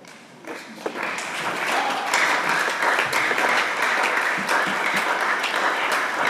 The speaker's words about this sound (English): The way you are clapping, I feel like ending a message right now.